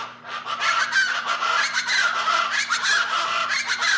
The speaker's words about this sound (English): large chicken-like bird of Mexico and Central America, the plain chakalaka reaches the United States only in southern Texas. Its name comes from its sound, the raucous call.